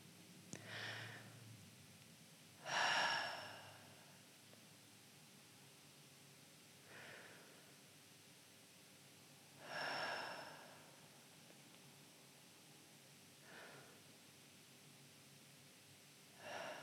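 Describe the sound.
Deep, slow breaths taken together by a group, heard as several soft, airy swells of inhaling and exhaling spaced a few seconds apart. Quiet, with no talk.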